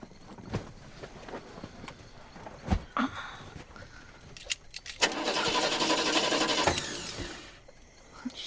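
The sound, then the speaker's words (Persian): A stranded car's engine is being started. Scattered clicks and knocks are followed by about two seconds of loud, sustained cranking that then dies away. “یه استارت بزن ببینم چی میشه.”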